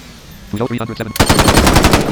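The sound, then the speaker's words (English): Rapid automatic weapon gunfire in an audio video game, a loud dense burst of repeated shots after a short voice-like sound. “in some people's games, audio games, when they fire a weapon, the bullet shells, you hear them at the spot that they're supposed to be.”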